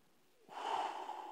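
A sharp breath blown forcefully out as a demonstration during a church sermon: one sustained, breathy rush of air lasting about a second, loud and alone with no talk.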